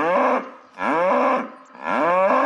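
A cow moos three times, each a long, loud, drawn-out call separated by short pauses, with no voices.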